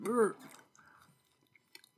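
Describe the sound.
Moist, crunchy chewing of a blueberry scone after a short voiced murmur, then a few faint, scattered clicks and smacks.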